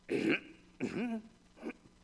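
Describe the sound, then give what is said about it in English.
Deliberate throat clearing made to signal someone's presence, heard as three short voiced bursts: two longer, louder ones and a brief softer one at the end, alone with no other sound. “kind of clear your throat. I'm here, I'm waiting, just to let someone know you're here”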